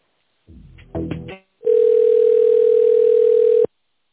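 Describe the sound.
A telephone line tone plays while a call is transferred to a specialist. It is a steady, single-pitched tone lasting about two seconds, heard alone after a brief muffled sound, then it cuts off abruptly.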